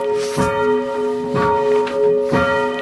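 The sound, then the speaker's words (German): A church bell rings out freely, struck three times at an even pace, each deep clang blooming over a continuous shimmering hum of overtones that never fully dies between strokes. “Das machen viele Leute falsch am Anfang, dass sie die Glocke abbremsen.”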